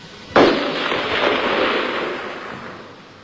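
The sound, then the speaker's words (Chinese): A burst of gunfire from the darkness during the Long March, heard as one sharp, loud crack that opens into a dense, crackling rush of noise. The noise fades steadily over about two seconds, with no voices. “一串来自黑暗最深处的子弹击中了一个年仅15岁的小号兵。”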